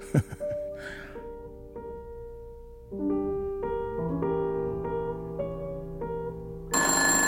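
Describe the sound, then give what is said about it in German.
A telephone rings with an incoming call. A sequence of sustained, bright ringing tones layers and builds steadily, ending in a louder, sharper burst. No voices are heard. “Ich werde diesen Anruf nicht entgegennehmen.”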